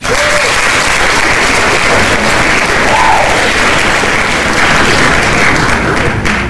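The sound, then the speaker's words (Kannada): Applause from the audience of a quiz programme, honouring those who gave correct answers: dense, continuous clapping stays loud and steady for about six seconds without letting up. “ಅವರೆಲ್ಲರಿಗೂ ನಮ್ಮ ಕಡೆಯಿಂದ ಈ ಚಪ್ಪಾಳೆ ನಮ್ಮ ಕಡೆಯಿಂದ ಬರ್ತಾ ಇದೆ, ನಿಮ್ಮ ಕಡೆಯಿಂದ ನೀವು ಸ್ವೀಕರಿಸಿ.”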